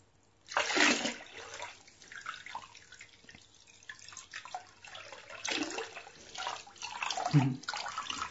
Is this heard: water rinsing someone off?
yes